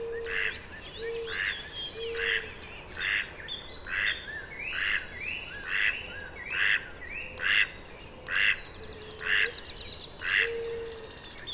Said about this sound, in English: There's a cardinal singing, and a mallard is sounding off,